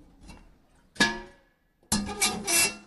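A cooking pot scrapes and rubs as it is fitted into a solar cooker, with a faint rasp first, then a sharp scrape, and finally a longer, louder stretch of rough rubbing. No voices.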